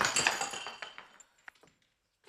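A glass wine bottle being handled in a shop gives a cluster of bright glassy clinks and knocks at first, then a few sparse, quieter taps fading into near silence before one last soft knock.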